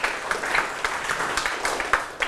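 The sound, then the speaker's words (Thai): Children clapping in a classroom: uneven, scattered claps rather than a dense ovation. Sharp hand-claps stand out here and there over a softer patter for a little over two seconds, at a moderate level. “เก่งมากปรบมือให้ทุกคนเลยครับลูก”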